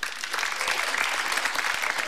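Audience applause at a live comedy show: dense, steady clapping from a small crowd that keeps an even, loud level for the whole stretch, with no voices over it.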